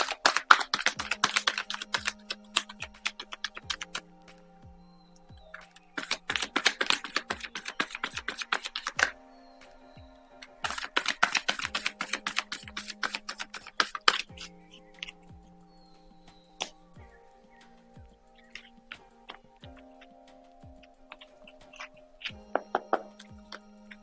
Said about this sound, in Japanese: カードシャッフルします。少々お待ちください。